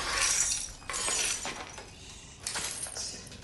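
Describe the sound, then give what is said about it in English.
Broken glass from a smashed light is swept with a stick, a few bright, gritty scraping rushes of tinkling shards separated by short pauses. “The smashed light flickers over him. He sweeps the glass with the stick.”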